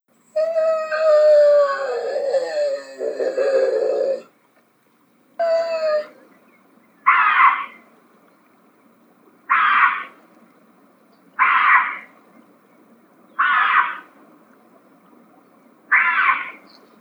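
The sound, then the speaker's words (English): A bobcat calls in a drawn-out, wavering yowl, then a short second cry, followed by five brief raspy calls spaced evenly a couple of seconds apart against a quiet background. “The mystery sound is not a bird, it's a bobcat.”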